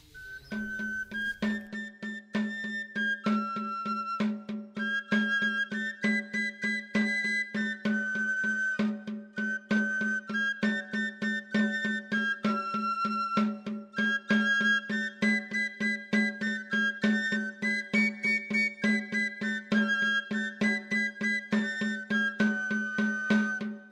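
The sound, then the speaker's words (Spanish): Music on a Cantabrian three-hole flute: a bright, high melody of many quick, clipped notes plays over a steady low tone, with a regular pulse running through the whole passage. “a la flauta de tres agujeros, o llamado en Cantabria el silbu, el pito, el tamboril”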